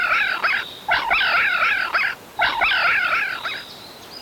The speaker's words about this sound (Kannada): ಆದರೂ ಜಿಂಕೆ ಮರಿ ಅಳು ಕಡಿಮೆ ಮಾಡಲಿಲ್ಲ. ಜೋರಾಗಿ ಅಳಲು ಮತ್ತೆ ಆರಂಭಿಸಿತು.